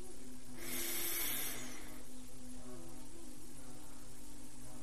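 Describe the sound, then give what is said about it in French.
A deep breath drawn in during a relaxation exercise, a soft airy hiss lasting just over a second over steady, sustained low tones. “Inspirez.”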